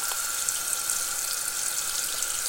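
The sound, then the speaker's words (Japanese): Hot water drained from a cup of extra-spicy instant noodles into a kitchen sink: a steady, faint rushing splash of water hitting the basin, even and unbroken, with no voices. “今湯切り中あのね湯切りする時ね流しにこうお湯流すでしょ”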